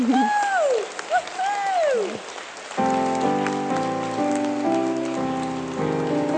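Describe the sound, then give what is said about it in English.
Applause with high whooping cheers at first, then sustained music chords come in and continue over the clapping. “Yay! Woo-hoo! Let's give them a hand.”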